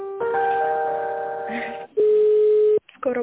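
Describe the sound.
Telephone line tones while an office call is being transferred to the accounting department: a long steady electronic tone, a brief gap, a louder pure second tone, then a short clipped fragment after a silence.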